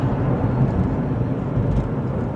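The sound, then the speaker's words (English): Car traffic heard from a vehicle driving on a busy road: a steady, low engine and road rumble throughout, with no talk over it. “Sorry, this guy was trying to cut me off here. Yes, that's right. I'm in traffic, folks.”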